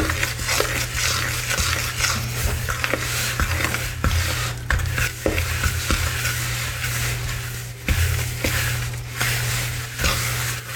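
A fork stirring purée, vanilla and milk into dry ingredients: quick, irregular scraping and clinks of metal running throughout, over a steady low hum, with no talking.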